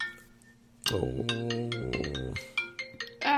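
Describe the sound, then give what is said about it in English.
A phone alarm tone blares a loud, harmonically rich melodic phrase lasting about a second and a half, then several shorter, bright electronic bursts follow in an uneven pattern, with no talk over it. “It's not my ringtone, it's my alarm. That's the alarm I set to wake me up to come and do this podcast. That's a horrible alarm.”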